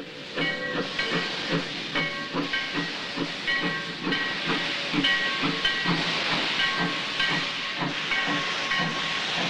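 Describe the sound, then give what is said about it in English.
A steam locomotive hauling a freight train with heavy machinery on an open wagon hisses loudly as it pulls into a station at dusk. A steady, dense hiss carries many regular chuffs and faint metallic ringing tones. “Belching out smoke and steam, a freight train pulls into the station, its headlight glowing.”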